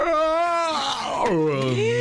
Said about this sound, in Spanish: ¿Qué clase de bostezo el que se tiró?